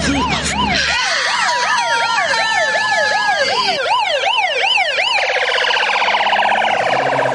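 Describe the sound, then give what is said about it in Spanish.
Loud police motorcycle siren escorting a vehicle to a hospital, sweeping up and down in rapid repeated wails that shift between slower and quicker cycles, with no voices. “Poco después llegan al hospital de Bayamo escoltados por una moto de policía.”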